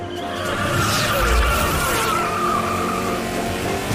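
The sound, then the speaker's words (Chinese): A stationary race car spins its tires to heat them, using clutch, brake and throttle together. A sustained, screeching tire squeal runs over the loud engine roar for several seconds. “其实就是利用离合、刹车跟油门同时运作的方法，让轮胎在车辆静止情况下也像在路上运行般，从而快速让轮胎升温。”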